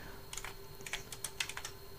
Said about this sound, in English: and we're going to type, and we're going to press the tab key now for subject of the message. I'm just going to type the word hello